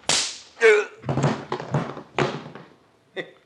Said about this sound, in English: Now, there was a pip of a punch.